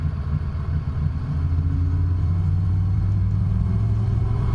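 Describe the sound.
A car drives along with its engine running again after a loose electrical connection, giving a steady low rumble and drone at even loudness throughout, with no voices.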